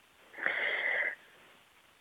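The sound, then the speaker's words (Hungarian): A man draws one deep, airy breath before speaking, a single inhale lasting under a second that swells and then cuts off. The rest is quiet apart from a brief sound at the very end. “Most veszek egy mély levegőt.”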